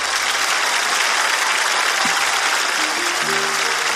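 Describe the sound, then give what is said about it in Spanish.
An audience applauds for a guest from Lircay, Angaraes, Huancavelica, with dense, loud, steady clapping from start to finish. “Cuando dijiste Lircay, no, un aplauso.”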